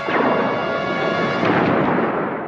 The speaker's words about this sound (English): Alaska charged photon bolts. Bolts charged, Captain. Fire.